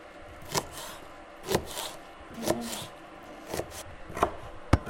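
Food is cut into thin slices with slow, steady chopping strokes, about six firm knife taps spaced roughly a second apart. A faint scraping sound runs underneath, and no one speaks.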